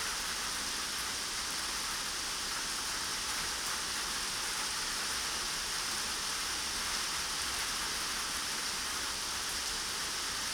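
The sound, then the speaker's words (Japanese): A sudden summer evening rain shower pours down as a steady, even hiss of falling rain that continues unchanged throughout, with no voices. “あなたも雨宿りしようと思ってたんだよね。嫌になっちゃうよね、この夕立。”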